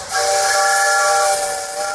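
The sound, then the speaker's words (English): A steam train whistle sounds from a community club's excursion train: a loud, steady, multi-toned chord wrapped in breathy hiss, sustained for the full two seconds without a break. “All aboard! The Sertoma Club train is continuing its 2022 season”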